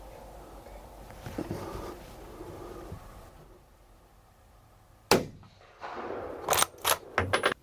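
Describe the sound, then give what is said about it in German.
A single gunshot is fired at a young roe deer during a hunt: one sharp, loud crack breaks a quiet stretch and then decays. A few sharp clicks and knocks follow. “So, das ist eindeutig ein Schmalreh. Ich schieße jetzt das Schmalreh”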